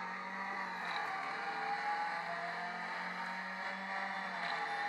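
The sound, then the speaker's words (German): Car engine in an iPad racing video game played from the cockpit view with automatic throttle: a steady, droning engine tone that holds a constant level throughout, with no talk over it. “Er gibt automatisch Gas und du bremst nur, ja? Wir haben die Cockpit-Perspektive, die beim iPad auch total Sinn macht.”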